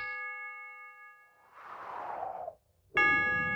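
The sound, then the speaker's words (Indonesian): A clock chime marks three o'clock in the afternoon with resonant metallic ding tones. One ringing tone sustains and fades, then a second loud strike rings out brightly near the end. “Setiap kali engkau mendengar bunyi jam yang menunjukkan pukul 3 sore”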